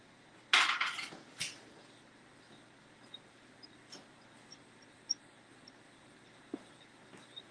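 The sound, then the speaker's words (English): Baked items come out of an oven and are set on a back counter with a sharp metallic clank, then a second softer clatter, followed by many faint scattered ticks. “And the items in the oven are ready to come out. So let me put this on the back counter.”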